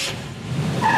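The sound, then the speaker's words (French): A car driving fast, heard as a brief continuous road and engine roar that grows slightly louder over about a second. “C'est une voiture, parce que vous êtes en train de passer votre permis”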